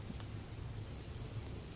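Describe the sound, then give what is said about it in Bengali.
Steady rain at night, drenching enough to soak someone through, makes a soft, continuous, even hiss with a low rushing bed. It is fairly faint, with no voices. “এত বৃষ্টিতে ভিজে গেছেন তো”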